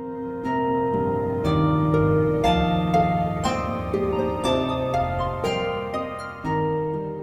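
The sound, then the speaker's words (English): Melodic music translated note by note from the coronavirus spike protein, a steady flow of distinct pitched notes at an even pace, moderately loud and sustained, with no voices. “That's the sound of COVID-19, the work of scientists from the Massachusetts Institute of Technology, who've translated the spike-like protein on the surface of the virus into musical notes.”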